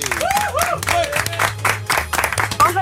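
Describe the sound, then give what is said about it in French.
Applause for a listener on a French radio morning show: loud, choppy clapping bursts mixed with voices and a low steady hum throughout. “Applaudissements pour Émilie.”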